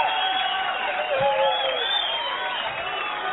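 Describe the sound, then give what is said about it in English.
Cheering and applause from an audience praising a talented performer after a live music set. A dense, steady wash of crowd noise with whoops and whistles runs through the whole clip without fading. “let's have a great big round of applause there for”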